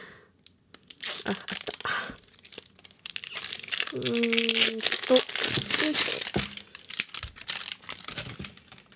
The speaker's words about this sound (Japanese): ちょっとガチャガチャ言いますね。あの梱包してるビニールが硬すぎて剥けないです。